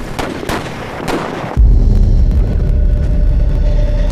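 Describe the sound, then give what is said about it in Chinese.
Gunshots ring out as a few sharp cracks over background noise, then give way to a loud, steady low rumble. “我们刚刚听到了枪声”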